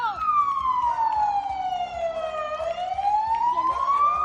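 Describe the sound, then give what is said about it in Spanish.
A Guardia Civil police patrol car passes a house with its siren sounding. One loud wailing tone sweeps slowly down, then climbs back up, over a low rhythmic rumble. “Un guardia civil pasa con el coche patrulla por delante de su casa”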